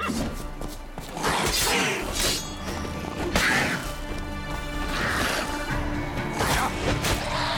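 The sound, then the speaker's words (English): Video game combat as drowner monsters attack someone: a dense, unbroken mix of crashes, thuds and swooshing blows, loud throughout with no clear pauses. “Oh, there's somebody in trouble. Still, you're ugly. Whoa. There's drowners attacking someone.”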